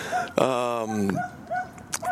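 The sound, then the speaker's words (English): A small dog gives one drawn-out, high yelping bark under ongoing talk. The bark is tonal and holds its pitch for under a second, with the voices continuing around it. “Hey, doggy. Stupid little dog.”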